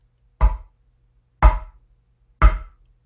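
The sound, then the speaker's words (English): A mallet striking a wooden han board as the Zen call to practice: three sharp, hollow wooden knocks, evenly spaced about a second apart, each decaying quickly into silence. “kind of a sharp report from the mallet striking the wooden Han.”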